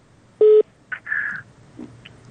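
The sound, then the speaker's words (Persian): Telephone call signal tones on a call-in line: a single loud, buzzy steady tone, then fainter brief higher tones and a short low warble, with no voices. “شما گفتین که تماس داریم، تماس جواب میدیم، بعد میپردازیم.”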